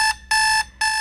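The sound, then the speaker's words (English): An electronic alarm clock beeps loudly, sounding steady high-pitched tones in a regular on-off pattern, with one full beep between two partial ones. “There's this alarm.”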